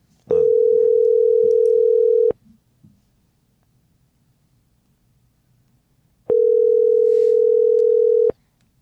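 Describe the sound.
Telephone ringback tone while calling someone: two long, steady single-pitched tones of about two seconds each, separated by a pause of roughly four seconds, over faint background hiss.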